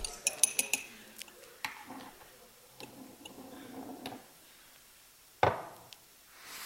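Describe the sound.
A spoon clinks against dishes during a food-tasting demonstration: quiet scattered taps and light ticks, then one louder clatter near the end, all fairly faint.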